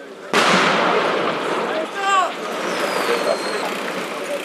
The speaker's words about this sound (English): we heard Israel firing artillery across the border into Gaza.